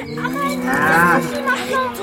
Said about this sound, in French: Il traîne même une vache pour le lait.